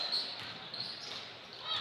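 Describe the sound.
A basketball is dribbled during an Exeter versus Manheim Township high school boys game. A few soft bounces sound faintly under a commentator's talk.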